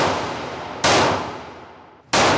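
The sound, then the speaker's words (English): Two loud, sharp gunshots at a shooting range, each hitting abruptly and trailing off in a long decaying tail, after the fading tail of an earlier shot. “Okay. Let's shoot a gun. Let's do it. Did you get us a lane?”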